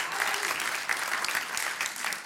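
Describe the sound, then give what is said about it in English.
Congregation clapping hands in praise during a church service: dense, continuous applause from many hands, loud and even for the whole stretch with no pauses. “Let's give God a hand clap of praise today.”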